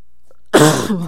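One abrupt sneeze from allergies breaks a silence, a loud breathy burst lasting about half a second and then trailing off.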